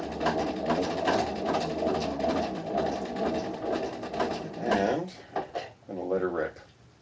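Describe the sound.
Hand-cranking a 1917 Victrola phonograph gives a steady mechanical whirring, ratcheting rhythm that runs for several seconds, with a voice briefly heard near the end.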